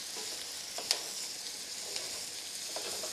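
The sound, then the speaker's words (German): Sliced garlic and diced onions sauté in hot clarified butter in a pan on the stove, giving a steady, soft sizzling hiss with a few brief sharp pops. “Auf dem Herd steht eine Pfanne mit heißem Butterschmalz. Was passiert jetzt? Da kommen jetzt der geschnittene Knoblauch und die gewürfelten Zwiebeln kommen da hinein. Die werden kurz angeschwitzt.”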